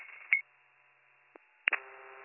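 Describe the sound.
Telephone being dialed to reach someone's cell or home phone: a few short electronic beeps and a soft click, faint and thin over a quiet line, with a low steady tone lingering after the last beep.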